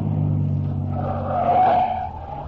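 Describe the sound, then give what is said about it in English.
Engine of a souped-up car revving, a steady low throaty drone that swells louder midway and then eases off, with no voices. “Ain't he kind of old to drive a souped-up buggy like this?”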